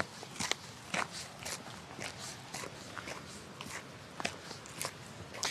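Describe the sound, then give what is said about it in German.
Footsteps of hikers crossing a glacier moraine in a glacier valley beside a glacial stream: faint, fairly steady crunching steps over a constant soft rushing hiss. “wir sind jetzt weitergewandert über die Gletschermoräne und sind jetzt so in einem Gletschertal am Gletscherbach, super idyllische Gegend. Wir wandern jetzt noch weiter zur nächsten Station.”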